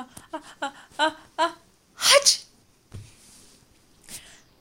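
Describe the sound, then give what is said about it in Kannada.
Several people sneezing loudly: a quick run of short voiced, gasping intakes builds to one loud, harsh explosive burst, followed by a quieter lone burst a moment later. “ಅವರು ಅಕ್ಷಿರಾಮನನ್ನು ಏನು ಮಾಡಲಿಲ್ಲ, ಬದಲಾಗಿ ಅವರೆಲ್ಲರೂ ಅವನಿಗಿಂತ ಜೋರಾಗಿ ಸೀನಲು ಪ್ರಾರಂಭಿಸಿದರು.”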